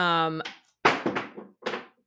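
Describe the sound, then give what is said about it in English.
A pet cat knocks objects off a shelf, producing a few sharp thuds and clattering impacts right after a brief voice at the start. “that was my cat, Bobby, knocking something off of a shelf.”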